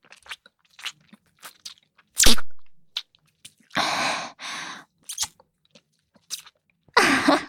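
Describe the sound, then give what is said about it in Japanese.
Wet slurping and smacking mouth sounds on the ear come in short, separate bursts, with a few longer, louder stretches of moist sucking between quiet gaps. “お耳、ジュルジュルされるの気持ちいいの？”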